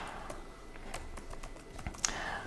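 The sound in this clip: Computer keyboard typing while code is being written, with many quick, irregular key clicks tapping along steadily at moderate loudness and no voices.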